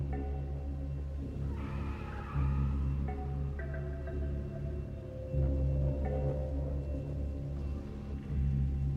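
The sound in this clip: A car drives off with a loud, steady engine rumble and low drone that lasts throughout, with brief swells in loudness.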